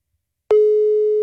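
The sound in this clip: Busy signal from a phone line after a number is dialed and the call goes unanswered: after half a second of silence, one steady electronic tone starts abruptly and holds at an even level to the end.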